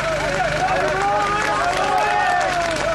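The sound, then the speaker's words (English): Crowd cheering and shouting as an 18-year-old university student is pulled alive from earthquake rubble in Ertsis: a dense, continuous swell of excited voices at a steady level. “The sounds you hear are the cheers of those who witnessed an 18-year-old university student pulled from the rubble in Ertsis.”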